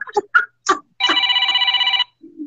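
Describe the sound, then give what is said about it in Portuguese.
A phone rings with an incoming call: one rapid, electronically trilling ring of about a second at a steady pitch. A few short, separate sounds come before it. “Tem alguém ligando. Espera que uma hora esse bicho tem que parar de chacar.”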